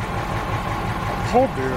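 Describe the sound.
A bus engine idles in a low, steady rumble that runs throughout, with a brief tonal sound rising above it near the end.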